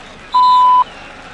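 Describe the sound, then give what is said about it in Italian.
A single voicemail beep before leaving a message: one steady, mid-pitched tone lasting about half a second, alone over faint background hiss. “Lascia un messaggio dopo il beep.”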